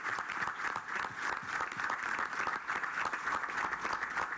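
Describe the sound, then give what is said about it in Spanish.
Audience applause for the national armed forces at an official ceremony, a dense, even roar of many hands clapping that holds steady and fairly loud throughout, with no speech over it. “Compañeros de la Fuerza Armada, un aplauso a la Fuerza Armada Nacional Bolivariana.”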